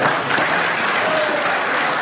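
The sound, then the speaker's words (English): Applause from an audience after a speech, a dense, steady patter of many hands clapping that fills the whole stretch without a break or audible voices. “Go ahead and cut that applause. He had a lot of applause.”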